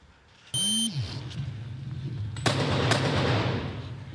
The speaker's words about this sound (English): This was the chaotic scene. Officers firing multiple rounds at two suspects who killed a police detective before targeting a kosher market in New Jersey, killing three people.